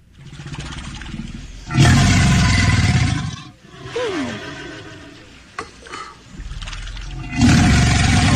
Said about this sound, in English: So this guy got very close to an alligator, decided, hey, let me record this for Twitter. And it sounds like a dinosaur, but it's really an alligator.